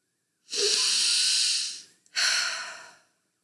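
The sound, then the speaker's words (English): A deep breath during a guided breathing exercise, heard as two airy, breathy sounds: a long one, then a brief pause, then a shorter one. “And now, take a breath in with me.”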